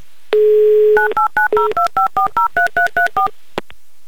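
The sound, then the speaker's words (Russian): A landline dial tone plays, then a phone number is keyed in to call a listener in Ryazan: a steady low tone for about half a second, then a rapid, evenly spaced run of many short, loud DTMF keypad beeps, and a faint click. “В Рязань я сейчас и буду звонить, и надеюсь, что Екатерина сможет взять трубку”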